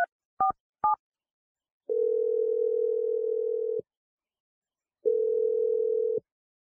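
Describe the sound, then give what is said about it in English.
A telephone number is dialed: three short keypad touch-tones come in quick succession, then two long, steady ringing tones follow with a gap of silence between them. “All right, I'm going to dial her number now.”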